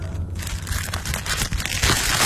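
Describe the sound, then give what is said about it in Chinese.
Paper parcel being torn open: a continuous, moderately loud crinkling and ripping of paper runs without a break for the whole stretch, with no voices. “医生迫不及待地撕开包裹”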